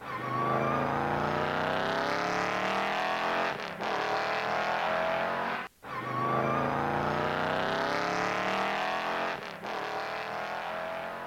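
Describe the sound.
A car engine revs hard as the car drives off, climbing loudly in two long, sustained surges broken by a brief drop in the middle, with no talking.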